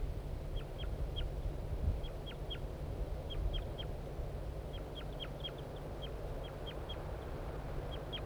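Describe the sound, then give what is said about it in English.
A male bird gives flight calls from a tree near the nest: many short, high chirps in small clusters of two to four, faint over a steady low background noise. “I think the female's on the nest and the male's giving flight calls from the tree nearby.”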